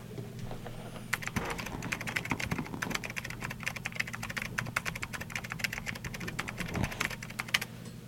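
Many rapid, irregular keystrokes of typing on a computer keyboard, fairly quiet, run continuously over a low, steady hum.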